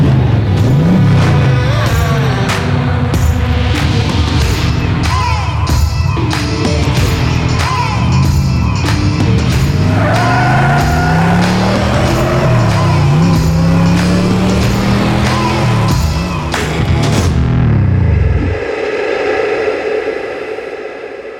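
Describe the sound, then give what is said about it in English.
Car engine revving hard, its pitch sweeping up and down in repeated surges over a loud, noisy bed with rhythmic pulses, then cutting off near the end to a quieter hiss. “So strap in, smash that pedal, and ride with us down the paranormal highway. Let's debunk and find the truth behind every ghost story in the world of transportation. Welcome to Haunted Garage. Let's rev it.”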